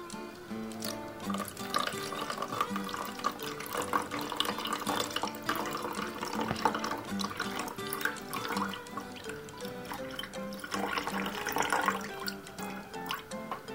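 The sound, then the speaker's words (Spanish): Water poured from a kettle onto yerba mate leaves in a gourd, a soft, continuous trickling stream that stays faint and steady for the whole stretch. “Vamos a poner un poquito de yerba con la cucharita. ¿No? Y después vamos a echar el agua.”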